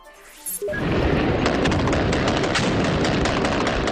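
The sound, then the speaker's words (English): Gunfire from a fierce battle between Taliban fighters and security forces at government buildings in Kandahar, Afghanistan. A brief quieter lead-in gives way to a loud, dense, continuous barrage of crackling shots and booms. “Sounds of a fierce gun battle that broke out between a team of Taliban fighters who were targeting UN government buildings and the security forces there.”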